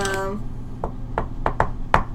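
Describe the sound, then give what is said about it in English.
Knocking on a door: five sharp, hollow raps in an uneven rhythm, moderately loud, following a brief voice at the start. “And I'm going to knock on the door, but I'm going to do,”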